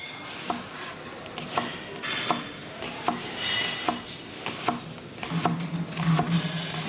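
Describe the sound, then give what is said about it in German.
Onions being chopped with a knife produce a slow, fairly steady series of sharp, moderate taps, about one every second, over a low continuous background. “Mit Zwiebelhacken. Das kannst du doch. Sicher. Dann zeig mal.”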